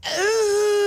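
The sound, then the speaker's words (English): A voice imitates a frustrated Bigfoot moan, a loud, sustained wail about a second long. Its pitch lifts slightly, then levels out and holds steady. “Yeah, imagine he comes in to work today. Oh, no audio again.”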